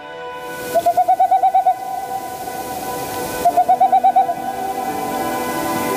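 Dove cooing: two quick bursts of repeated soft, low coo notes in an even rhythm, separated by a pause, over a quiet steady background.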